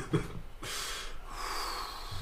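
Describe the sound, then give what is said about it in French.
A long, deep breath drawn in, a steady airy rush that lasts nearly two seconds after a short sniff-like burst at the start, with no talk over it. “On prend une longue inspiration.”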